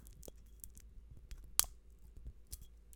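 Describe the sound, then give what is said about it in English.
A small red pull tab is peeled open on a beer, giving quiet, crackly scraping with one sharp click partway through. No voices are heard. “So, little red tab, you peel it.”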